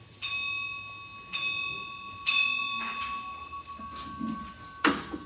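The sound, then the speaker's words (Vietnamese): A Buddhist temple bell is struck before chanting, with three strikes, each leaving long, shimmering overtones. A few duller knocks follow. The sound is fairly faint and there is no talk. “Ngài chuẩn bị thắp nhang xong thì bắt đầu vô chuông mỏ và tụng khoảng 21 phút.”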